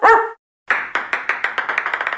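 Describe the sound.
A dog barks in a pet food advertisement, a rapid run of many short, sharp barks that come faster and grow fainter after a brief opening sound.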